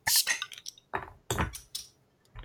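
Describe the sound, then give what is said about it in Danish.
Clinks and clatter as a small, thick Belgian beer bottle of Blanche de Namur is opened, with several sharp, bright bursts of glassy and metallic sound spread through the moment, no voices. “skal vi øh, åbne den? Lad os det. En lille tyk flaske.”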